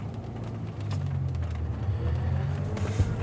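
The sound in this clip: A taxi car drives with a steady, low engine rumble and road hum. The sound is moderately loud and even throughout, with faint higher noise on top.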